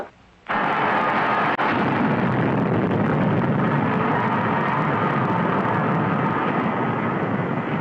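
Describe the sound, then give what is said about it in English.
Spacecraft rockets fire for braking after leaving a space station. After a moment of near silence, a loud, broad, rushing roar starts abruptly and continues steady and unbroken to the end. “We're in free fall. Firing rockets in 2 seconds.”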